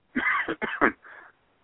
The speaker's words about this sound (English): I got a little sore throat if I'm coughing.